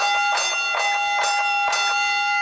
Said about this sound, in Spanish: Solo hay que mantenerse en pie hasta que suene la campana.